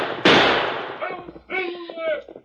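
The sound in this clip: A single loud gunshot cracks out near the start, with a sharp attack and a long, fading tail. Voices talk afterward.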